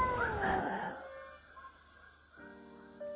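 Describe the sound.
A cat gives one long, wavering meow that is loud at first and fades after about a second, followed by quieter sustained tones.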